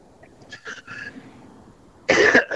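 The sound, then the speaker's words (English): A person with a slight morning cough gives one short, loud, rough cough near the end, breaking into two quick bursts after a quieter stretch. “excuse me, I got the little cough this morning here.”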